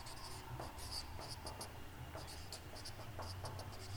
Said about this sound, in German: Ich schreibe mal das Tun hier hin, das Umdenken hier.